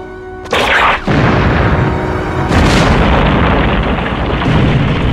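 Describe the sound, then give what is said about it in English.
A film explosion set off by a solar-powered laser in a spy movie: a short low tone gives way to a loud, broad blast. About two seconds later a second surge follows, then a sustained roaring rumble fills the rest. “the solar-powered laser is in this movie that we use to explode this thing.”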